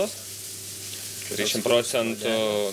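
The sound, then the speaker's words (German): Fresh cod fillet, caught the same day, fries gently in a pan at low heat, giving a soft, steady sizzling hiss, with a voice speaking over it in the second half. “Die Temperatur beim Braten sollte die 55, nie mehr als 60 Grad sein. Der Kabeljau, der heute gefangen worden ist, ist ja noch ganz frisch. Den muss man ganz vorsichtig garen.”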